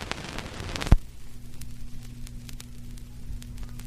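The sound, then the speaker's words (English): Needle dropped onto a vinyl record: one sharp low thump, then a steady low hum and surface hiss with scattered faint crackles and pops. “Number 8, needle on vinyl.”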